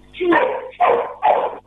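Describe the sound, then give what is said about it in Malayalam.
A dog barks three times in quick succession during a phone call to a music request show, with loud, mid-pitched barks, the first slightly longer than the others. “പേര്, ആ പട്ടിയുടെ കൊരയിൽ കലങ്ങി പോയി കേട്ടോ.”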